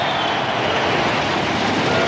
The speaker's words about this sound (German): Über dem Stadion fliegen Düsenjets.